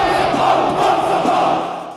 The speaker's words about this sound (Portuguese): A torcida do São Paulo, bom número, 45 mil torcedores.